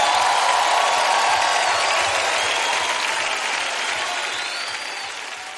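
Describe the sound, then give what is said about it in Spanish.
A church audience applauding in praise during worship, dense, sustained clapping from many people that slowly fades over several seconds. “Oh, exáltale con tu aplauso.”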